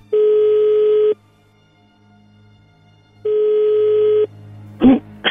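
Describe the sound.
A telephone ringback tone on an unanswered call: two long, steady buzzing tones separated by a silent pause, followed by a short burst of noise at the end.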